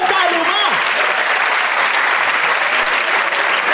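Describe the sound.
Audience applause: dense, steady clapping fills the whole stretch at an even level, and a voice talks over it near the start.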